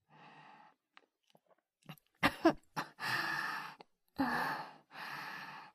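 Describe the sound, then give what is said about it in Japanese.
Coughing and choking on a strong smell: a few sharp, breathy coughs, then longer, rough voiced gasps and sputters, fairly loud and without talk. “それ、匂いがあまりにも強いので、むせてしまいました。”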